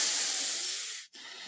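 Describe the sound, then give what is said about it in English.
A slow, loud breath out through the nose imitating a masked villain's mechanical breathing, heard alone as a long airy hiss during a relaxation exercise that lengthens exhalations, fading slightly before cutting off abruptly, followed by a fainter hiss. “Lengthen your exhalations in order to relax. Okay, think about like Darth Vader on this one.”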